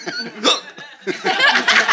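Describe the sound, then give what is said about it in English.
Hiccups mixed with chuckling laughter: a few short, voiced gulping catches in quick succession, fairly loud, over about two seconds. “Common causes of hiccups are eating too quickly.”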